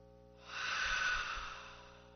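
People in a worship service take a deep breath together, a soft airy rush that swells smoothly, holds for about a second and then fades away, with no talk over it.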